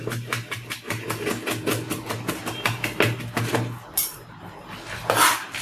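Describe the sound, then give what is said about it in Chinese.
Knife chopping garlic finely on a board, a rapid, even run of many crisp strikes that stops near the end, followed by a couple of louder clatters over a low steady hum. “最后把大蒜切碎。”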